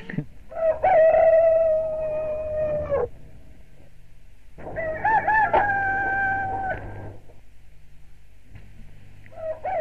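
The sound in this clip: Rooster crowing: two long, loud cock-a-doodle-doo calls separated by a short pause, with a third crow just beginning at the end.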